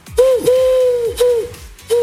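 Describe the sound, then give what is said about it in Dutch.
A human voice imitates a dove: four soft, hollow, hooting coos. The first is short, the second is long and drawn out, then two shorter coos follow after pauses, all at a fairly steady mid-low pitch. “Dat is toch een duif, hè? Of niet? Een duif. Ja. Een duif.”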